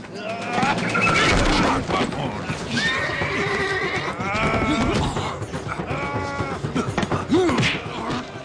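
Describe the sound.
Mules neighing: several high, wavering whinnies rise out of a busy, noisy background, with the loudest cries in the middle and near the end.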